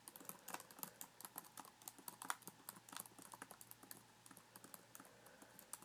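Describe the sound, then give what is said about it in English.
Rapid touch typing on a computer keyboard: many quick, uneven key clicks in a steady patter, with no voices. “You can touch type, right?”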